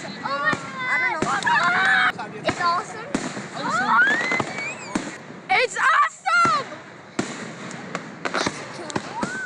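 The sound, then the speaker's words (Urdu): Fireworks over a lake at an Independence Day celebration, launched from a platform in the middle of the water. Many sharp bangs and crackling pops come in quick succession, with voices heard throughout. “فضا میں قوس قزح کے رنگ بکھیرتی یہ آتش بازی گھنٹوں جاری رہی۔”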